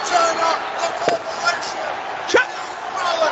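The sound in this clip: A wrestling chokeslam landing on the mat, heard as a sharp slam under excited commentary and crowd noise, with a lighter thump shortly before it.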